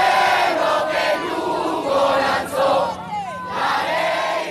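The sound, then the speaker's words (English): A large crowd at a Venezuelan opposition rally sings the national anthem together, a loud, continuous mass of voices holding sung pitches that swell and dip throughout. “That's the sound of Venezuelans singing the national anthem alongside Juan Guaido”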